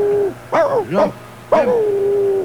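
A dog gives three short, strained yelping barks while its neck is being squeezed. A long, steady whining tone sounds before the first bark and trails on after the last.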